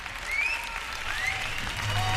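Applause from a live flamenco show recorded at Chamartín station: dense, steady clapping that fills the whole stretch at an even loudness, swelling slightly near the end.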